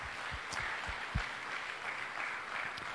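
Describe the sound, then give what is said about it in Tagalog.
A church audience applauding during a worship service: faint, steady clapping forms a soft hissing wash of many hands, with a few sharper claps standing out. “Amen. Amen. Palakpakan natin ang Panginoon.”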